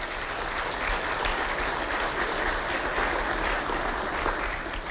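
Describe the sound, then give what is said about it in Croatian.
Applause rises for quiz winners and student participants in the Croatian Parliament. The clapping from the crowd holds steady and full for about five seconds. “Molim jedan pljesak za njih.”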